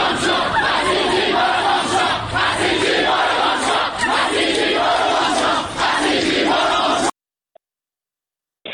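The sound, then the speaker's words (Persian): Amirkabir University students chant slogans in unison at a protest. The crowd's voices are loud and rhythmic, rising and falling in repeated waves for about seven seconds before stopping abruptly into silence. “شعار میدادن که بسیجی برو گم شو، ولی نیروهای بسیجی به اونها حمله کردند. صدای دانشجویان دانشگاه کبیرم میتونیم بشنویم.”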